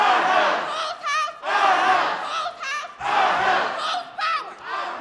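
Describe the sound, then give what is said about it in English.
A crowd of protesters shouting and chanting in the state capitol rotunda and galleries in December 2018: a loud, dense mass of raised voices that swells and dips in repeated bursts, with no single speaker standing out. “That was from December of 2018 at the state capitol. Protesters flooding the rotunda and the galleries of the state capitol”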